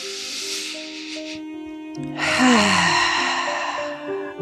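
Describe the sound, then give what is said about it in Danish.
One deep, slow breath during a yoga session, heard as a long, airy hiss that swells and then eases over quiet sustained music tones. “Det er næsten som, når du ånder ind, så kan du vokse det hele lidt større og skabe det ekstra plads, du har brug for til at være. Sidste vejrtrækning.”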